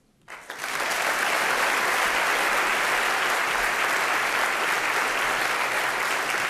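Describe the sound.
Audience applause welcoming the Cerberus Trio, a young chamber group of violin, cello and piano: clapping swells up within the first second, then holds as a loud, steady, dense wash to the end.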